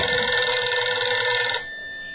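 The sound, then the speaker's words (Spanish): A telephone bell rings in a continuous bright, buzzy trill, then cuts off abruptly and leaves near silence for the last half second. “Pero ese maldito teléfono sonó.”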